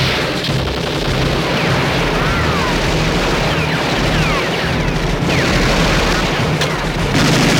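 Machine gun fire rages through a film battle scene, a loud and dense barrage that runs without a break across the whole clip, thick with overlapping shots and booms.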